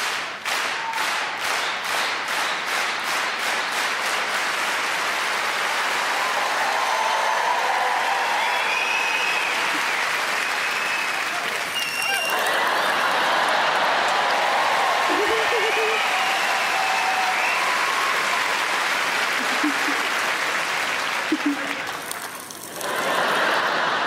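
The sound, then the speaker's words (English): An audience claps, starting with a burst of quick rhythmic claps and then breaking into long, dense applause that stays loud throughout, with voices heard through it. “Okay, let's do it like, can we do clap, clap, clap?”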